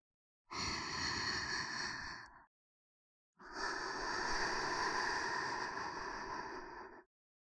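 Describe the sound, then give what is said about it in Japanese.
Two long, deep breaths, each a steady breathy hiss. The first lasts about two seconds and the second about three and a half, separated by a short silence, with no talk. “ではまず、深呼吸してください。”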